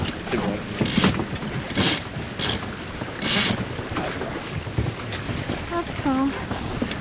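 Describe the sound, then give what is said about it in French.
The foresail being hoisted on a sailing boat: a few rasping bursts of line running through pulleys and a ratchet, over a steady wash of wind noise. “On va pouvoir établir le On envoie la voile avant. C'est bon.”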